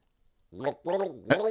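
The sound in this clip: A person gargles water while singing, the voice bubbling and wobbling through a few short sung phrases with brief gaps between them.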